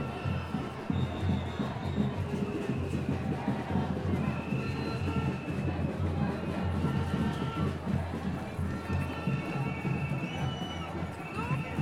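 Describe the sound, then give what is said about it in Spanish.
Crowd noise from a large student and farm-sector street protest march: a dense, continuous din of many voices, loud and unbroken from start to finish. “bajar incluso un poco el nivel de sensibilidad de los micrófonos porque están estallados con esta bullaranga acá. Una marcha multitudinaria.”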